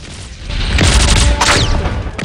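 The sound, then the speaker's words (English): A rocket strikes a watchtower in a war film and explodes. A loud roaring blast swells up with a second crashing burst on top, then eases slightly toward the end. “Another rocket is launched and it hits the watchtower, killing the guard in it.”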